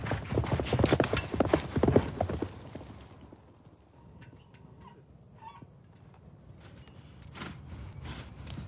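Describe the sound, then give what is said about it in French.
Horses gallop along a long track during Japanese mounted archery, a dense, loud drumming of hoofbeats for about three seconds, then thinning to sparse, quieter clatter and ticks. “Les cavaliers doivent galoper sur une piste longue de plus de 200 mètres et atteindre trois cibles distinctes.”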